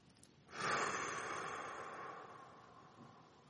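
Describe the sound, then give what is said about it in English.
A single long, deep breath drawn in: an airy hiss that swells sharply, then slowly fades over about three seconds, heard alone with no talk. “I want to invite you to just take a moment to close your eyes and to take a deep breath.”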